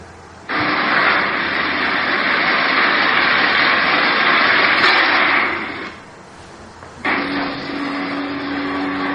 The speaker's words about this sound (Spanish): Y esos serían aviones volando.